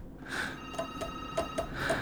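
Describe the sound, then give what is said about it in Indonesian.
A telephone rings faintly with a series of short, bright electronic tone bursts repeating in a quick, uneven pattern over a low background hum. “Oh. Teleponnya, oke.”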